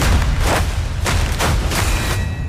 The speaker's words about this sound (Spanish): ¿Por qué le disparan a ustedes?